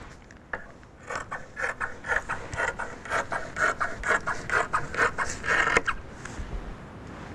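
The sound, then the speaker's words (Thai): Scissors cut fabric along the seam allowance with many quick, crisp rasping snips in a steady rhythm. The snips grow louder through the middle, then stop abruptly near the end. “เราก็จะต้องนำกรรไกรนะคะมาตัดนะคะตัดตามที่เราเผื่อตะเข็บไว้เลยนะคะ”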